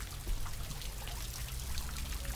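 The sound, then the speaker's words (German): Salt water trickles softly down a graduation tower, making a quiet, steady hiss of fine dribbling water with no breaks and no voices. “mit Sabine Leclerc-Fröbel nochmal um das Gradierwerk spaziere, vorbei am leise rieselnden Salzwasser”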